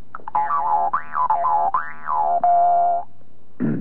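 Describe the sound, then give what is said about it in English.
A Jew's harp sounds one note: a buzzy, twanging tone rich in overtones whose pitch swoops up and down several times, then holds steady before stopping, followed by a short burst of noise. “this is due to the overtones and the subharmonics that are contained in this instrument, which is the Jew's harp.”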